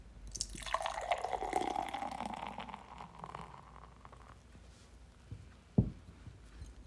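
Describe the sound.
Kirin Ichiban Shibori beer poured into a glass, building a heavy head of foam: a steady gurgling, fizzing stream lasting about four seconds that gradually thins out, followed by one sharp knock.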